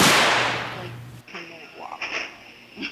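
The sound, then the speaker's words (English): Fireworks going off indoors in a smoky room: one loud sharp crack at the start that rings and decays, followed by a few softer pops, with voices faintly present. “Well, they're not, and we've got fireworks, and there's a lot of smoke in here.”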